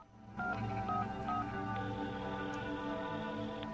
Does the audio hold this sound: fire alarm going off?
no

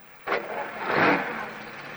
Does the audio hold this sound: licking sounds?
no

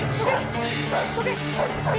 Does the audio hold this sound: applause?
no

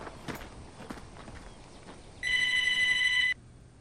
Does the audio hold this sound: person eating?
no

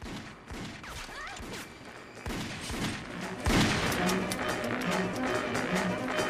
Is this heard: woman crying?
no

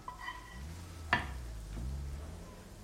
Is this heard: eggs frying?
yes

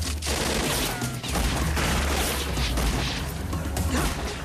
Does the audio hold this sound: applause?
no

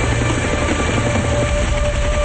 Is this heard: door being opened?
no

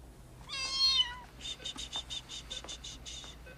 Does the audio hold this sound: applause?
no

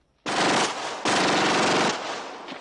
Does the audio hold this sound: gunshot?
yes

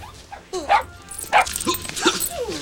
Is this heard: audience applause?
no

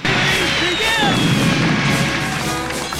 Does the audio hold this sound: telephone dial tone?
no

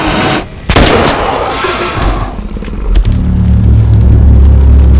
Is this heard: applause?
no

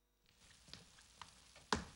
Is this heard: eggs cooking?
yes

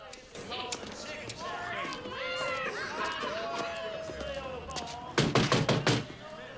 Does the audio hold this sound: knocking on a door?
yes

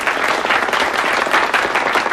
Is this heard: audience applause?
yes

